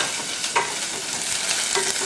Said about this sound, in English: Just break it up, and then about 1 green chili. I feel it's spicy enough, so I don't want to add anything more. Just stir it.